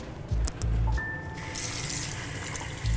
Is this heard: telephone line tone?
no

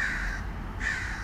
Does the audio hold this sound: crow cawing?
yes

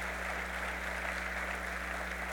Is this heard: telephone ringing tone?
no

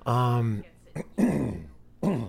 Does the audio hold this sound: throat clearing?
yes

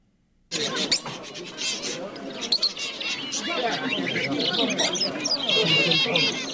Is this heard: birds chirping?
yes

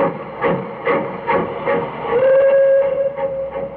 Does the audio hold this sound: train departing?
yes

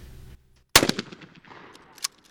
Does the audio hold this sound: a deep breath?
no

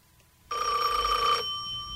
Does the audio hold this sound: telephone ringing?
yes

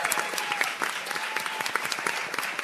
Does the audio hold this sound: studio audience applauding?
yes

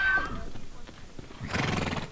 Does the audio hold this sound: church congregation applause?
no

